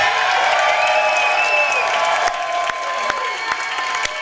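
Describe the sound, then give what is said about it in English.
Loud crowd cheering and applause as the Kansas City Chiefs president is welcomed at a team gathering, sustained and dense throughout, with a bright whistle near the start and scattered sharp claps. “You haven't had that big a cheer since you won the Ivy for Brown as a quarterback.”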